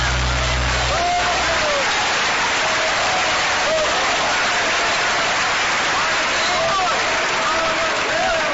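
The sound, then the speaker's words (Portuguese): Congregation applause during a church service: a dense, hissing wash of clapping that sustains for the whole stretch, with voices faintly audible on top. “Pode levar a Deus com as palmas.”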